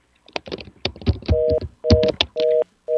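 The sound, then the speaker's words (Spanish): A phone call drops: choppy, garbled line bursts give way to four evenly spaced electronic tone beeps, the last one cut off. “Se cayó la llamada.”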